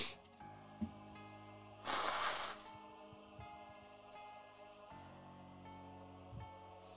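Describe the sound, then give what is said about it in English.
A person with cat allergies blowing their nose: one loud, breathy hissing burst lasting about half a second in the middle, with only faint low hum and soft noises before and after. “Sorry, guys, if you see me blowing my nose. I was around a lot of cats earlier today, and my allergies are still hating it.”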